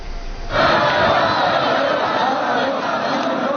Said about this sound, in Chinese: 前往木兰馆的路上，沿途站满身着民族盛装的热情民众，热烈欢迎习近平的车队经过。